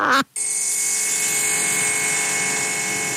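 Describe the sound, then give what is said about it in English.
A faulty air fryer whose fan is hitting something gives off a steady, high buzzing whir with a rattling edge. It cuts out briefly near the start, then runs on continuously. “If your air fryer sounds like this, it's not supposed to. I think the fan is hitting something”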